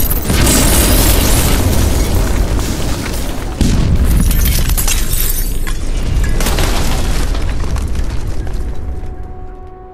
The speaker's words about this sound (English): He rolls a silver ball into the alley full of used sex bots. A thermal detonator, Earl says, as the droids begin to protest. Then... boom.